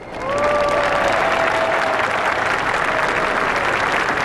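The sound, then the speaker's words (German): Audience applause welcoming the chairman of BMW's board onto the stage at a plant event; dense, steady clapping swells in within the first half second and holds at an even, loud level to the end. “Meine Damen und Herren, begrüßen Sie mit einem Riesenapplaus den Vorstandsvorsitzenden Dr. Norbert Reithofer.”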